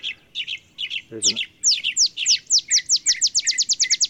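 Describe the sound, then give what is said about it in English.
An olive sparrow sings in bushes: a series of high, sharp chips that start spaced and then speed up into a rapid, ringing trill, clear against a quiet background. “There's an olive sparrow singing in the bushes over there.”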